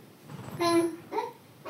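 A baby babbles in two short, high-pitched bursts of vocal sound, fairly faint and separated by a brief pause.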